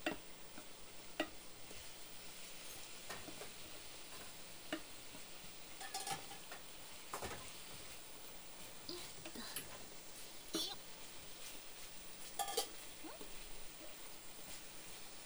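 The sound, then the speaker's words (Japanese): Food sizzles steadily in a frying pan as the pan is flipped, a constant hissing fry broken by a few sharp scraping and clattering knocks of the pan and utensil. “フライパンひっくり返してるだけよ。”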